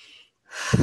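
A single deep breath drawn in, rising out of silence into a short, airy inhalation that grows louder toward the end.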